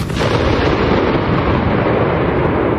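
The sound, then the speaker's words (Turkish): A loud explosion during an attack at King Khalid International Airport in Riyadh, caught on security camera footage: a heavy, continuous roar and rumble fills the whole clip at steady loudness, with no voices. “Güvenlik kameralarına yansıyan anlarda patlamanın yol açtığı dehşet ve yolcuların can havliyle kaçışması saniye saniye görüldü.”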